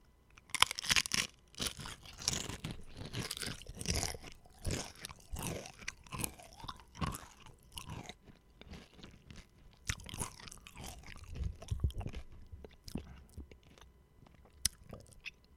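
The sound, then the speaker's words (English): Potato chips being crunched and chewed, with many crisp, irregular crunches and softer chewing sounds repeating throughout at a fairly quiet level, with no talk over them. “It's where you just kind of listen to cool, soothing sounds. And this is the soothing sound of eating chips.”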